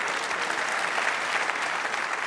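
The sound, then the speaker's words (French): Audience applause at a live quiz event, with spectators clapping after a joke question. Dense, even clapping holds steady throughout at moderate loudness, with no distinct voices. “On rigole, on applaudit, mais on n'a pas la réponse.”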